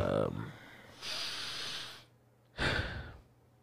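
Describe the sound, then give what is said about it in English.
A nervous person takes a deep breath: after a moment of talk comes a long, hissing inhale, a short pause, then a forceful, sigh-like exhale. “You took a deep breath. I'm nervous.”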